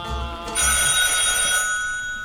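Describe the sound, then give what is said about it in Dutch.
A telephone bell rings with a loud, bright, sustained trill that begins partway through and then fades away. “Ondertussen telefoon voor Teunissen.”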